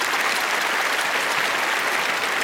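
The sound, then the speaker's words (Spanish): Thunderous, steady applause from a standing theatre audience as a performer is introduced on stage, a continuous wash of many hands clapping without pause or voices. “a María Rubiteiko rompiendo en fuertes aplausos”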